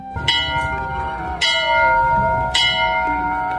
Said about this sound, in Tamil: அது கோயில் மணி கூட அடிக்குது, நல்ல சகுனம் தான்.